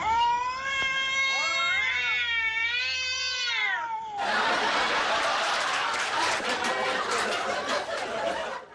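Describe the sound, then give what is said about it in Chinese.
A cat yowls at midnight in a long, wavering wail that sounds like a crying baby. The cry rises and falls for about four seconds, then gives way to a harsher, noisier stretch. “半夜像小孩哭的猫叫”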